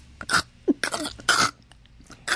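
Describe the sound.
Coughing and throat clearing in a staged scene of a baby choking: several rough, uneven bursts with short gaps between them, heard without talk.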